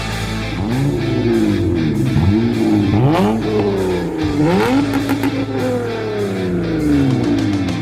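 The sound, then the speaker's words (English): A Honda Accord V6 with a 6-speed manual revving in several repeated rises and falls of engine pitch, loud and continuous with no voices. “That is another Honda Accord. This time, that belongs to listener Eric, and it's a V6”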